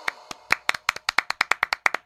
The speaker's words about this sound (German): Ein Applaus für den jungen Herrn!